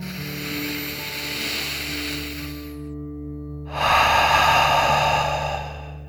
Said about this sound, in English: So let's take one final deep dragon breath in and out.